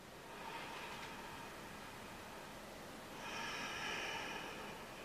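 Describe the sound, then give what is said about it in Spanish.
Slow, deep breathing through the nose, faint and airy: one long soft rush of breath, then a second, slightly stronger one after a short gap, with no talking. “Y tomas tres respiraciones más profundas. Inspirando y exhalando por la nariz.”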